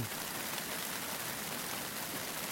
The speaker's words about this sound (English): We went to bed last night, lovely, nice, sunny evening, and we've woken up to driving rain.